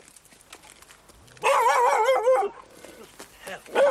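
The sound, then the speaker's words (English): An attack dog gives a loud, wavering, whining bark-howl lasting about a second, followed by quieter yips and a final sharp bark. “Oh, boy, that's an attack dog, that is.”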